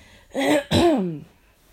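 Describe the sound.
Two short, rough throat-clearing coughs from someone suffering from allergies come in quick succession as a pair of moderately quiet, voiced bursts, with no talk around them.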